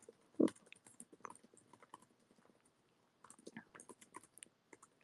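Typing on a keyboard in capital letters, soft, quick tapping of keys at an uneven rhythm, in two faint bursts separated by a brief pause, with no voices.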